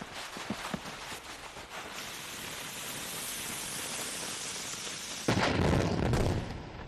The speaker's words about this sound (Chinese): 哎哎，注意注意，他做了个手势，要点炸药了。 哎呦，都靠后，趴下。